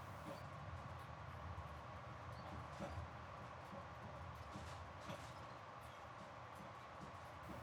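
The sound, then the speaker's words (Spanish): Inside a first-class train carriage, a faint, steady low rumble of the moving train holds throughout, with soft rattles and no voices. “por un error al comprar nuestros billetes online, estamos en un vagón de primera clase.”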